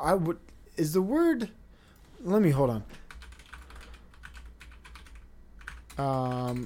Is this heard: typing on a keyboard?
yes

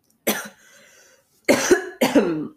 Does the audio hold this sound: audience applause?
no

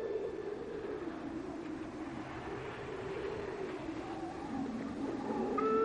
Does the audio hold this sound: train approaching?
yes

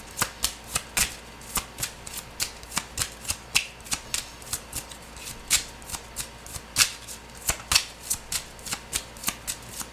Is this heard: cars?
no

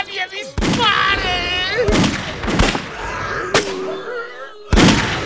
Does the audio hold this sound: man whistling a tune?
no

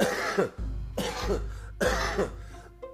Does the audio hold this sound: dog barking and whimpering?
no

